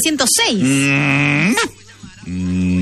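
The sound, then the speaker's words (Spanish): A cow moo sound effect: a long, low, harmonic call that swells up, holds, then drops, followed after a short pause by a second, lower sustained tone. “La vaca.”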